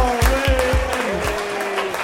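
Audience applause welcoming a comedian onto the stage at a comedy show, a dense clatter over regular low thumps lasting about two seconds.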